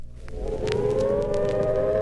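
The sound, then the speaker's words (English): A civil defense nuclear attack warning siren wails alone, a loud sustained tone that rises slowly in pitch after a quieter start. “The sound you hear is a recording of the warning siren in case of an imminent nuclear attack.”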